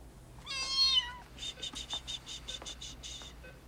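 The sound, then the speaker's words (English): A kitten gives one drawn-out, high meow, then a series of even, rhythmic cricket chirps follows against a quiet background. “Taking the kitten, she heads off.”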